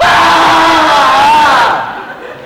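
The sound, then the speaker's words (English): A crowd of staff at a research center screams together in unison in a cafeteria as a daily ritual. The loud, sustained group scream holds for under two seconds, then fades quickly. “we all try to scream at least once a day. Usually it happens in the cafeteria. Someone on the staff will stand up and shout, "Scream in time!" And everyone just,”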